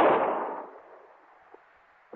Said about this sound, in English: That's a stupid trick. Too close. No, wait. Hey, your last shot, wasn't it, Frankie?